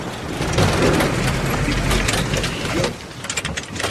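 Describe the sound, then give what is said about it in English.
Military Humvees turning off a road and braking to a quick stop: a loud, rough engine and tire rumble with broad noise that drops off sharply near the end, leaving lighter scattered knocks. “The Humvees turn off a road and come to a quick stop.”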